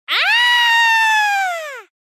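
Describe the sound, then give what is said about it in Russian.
A loud, high squeal on a snowy mountain: one sustained, piercing tone lasting nearly two seconds, swooping up briefly at the start, holding steady, then dipping slightly as it cuts off. “Громкий визг раздался откуда-то справа.”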